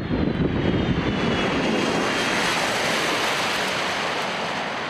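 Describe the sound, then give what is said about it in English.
Loud, steady roar of a C-17 military transport jet arriving at an airstrip: a broad, rushing engine noise with a faint high whine that holds evenly throughout, with no voices. “Mike was standing about 50 feet away. When the C-17 came in.”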